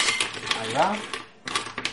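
Clams going into a pan of artichokes simmering over low heat, with sharp rattling clinks of shells against metal, a short lull, then another burst of clatter.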